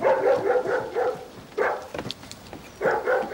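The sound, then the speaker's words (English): Dog barking at a cottage: many sharp, repeated barks in quick bursts, then a short pause, a single bark, and another burst at the end, fairly loud throughout. “His cat impersonation distracts the dog.”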